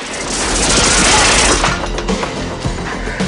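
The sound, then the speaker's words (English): Gunfire from a man hidden in a bush rips through a house window in a dense, loud burst of overlapping cracks and booms that eases off slightly toward the end. “Shots rip through the window.”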